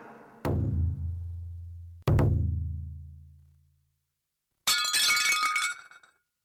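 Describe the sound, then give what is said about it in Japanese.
A plate breaking at home in the morning: two loud, ringing strikes, each with a long resonant decay, followed by a bright, crashing shatter of pieces, with no voices. “出勤前の午前8時妻がお皿を割った。”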